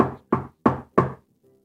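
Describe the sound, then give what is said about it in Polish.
Four sharp knocks on a door in an even, steady rhythm, each one crisp and loud, followed by quiet. “Zszedł na dół, żeby zapukać pod jedynkę.”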